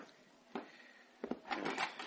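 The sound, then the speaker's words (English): A front door is opened: a faint wooden clunk, then a pair of quiet latch-like clicks, then soft rustling and handling noises. “We must answer the door.”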